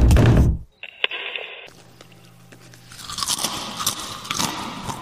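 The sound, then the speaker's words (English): Someone chews and eats close to a microphone. A loud crunching bite comes first, then a quieter pause, then a building run of crisp crunching and mastication noises through to the end. “Oh, God, what is that noise? Where is that coming from? What is that? Oh, it's like someone eating into a microphone.”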